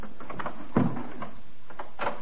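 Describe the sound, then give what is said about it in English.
A door is forced open with a kick from regulation police boots: one heavy, low thud stands out, with a few faint bumps and creaks around it. “It's the only door in the place. Open it. You've got keys, haven't you? I've got no keys. Then I'll open it. Stand clear. Some use for regulation police boots, after all.”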